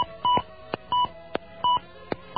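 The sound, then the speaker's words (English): Touch-tone telephone keypad dialing into an automated directory assistance line: a string of several short, pure beeping key tones at an uneven pace, separated by faint clicks, with no voices. “Please dial last name, star, then first name, star.”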